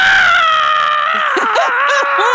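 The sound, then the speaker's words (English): A voice imitates shrill screaming, mimicking a producer yelling into a sideline reporter's earpiece during a Lakers game interview. A strained, high, sustained wail holds steady, then breaks into quicker wavering squeals. “Sue's in my ear, and she is literally screaming at me. She's like,”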